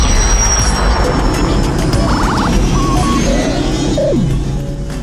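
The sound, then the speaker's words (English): Smoking spaceship with crumbling engines struggling to land: a loud, continuous roaring rumble laced with thin whines and short electronic tones, holding steady before easing off slightly at the end. “Chief Engineer's log, stardate 020522, trying to bring her in for a landing. She's a smoking ship, all right? She's got engines that are a-crumbling.”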